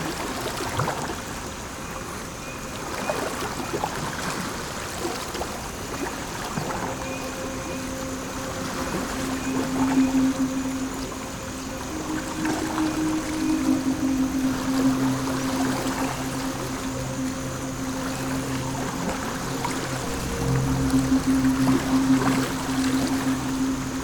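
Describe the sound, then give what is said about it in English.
Water swishing and splashing as a paddle pulls a boat along, a steady run of soft strokes and ripples that rises and falls in intensity, with no one talking. “we are doing good with that paddle”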